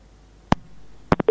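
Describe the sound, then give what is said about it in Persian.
Telephone line tones after a call drops: a few short electronic blips, then a steady, unbroken tone begins at the end, all clean against near silence. “فکر کنم تماسی اینا قطع شد.”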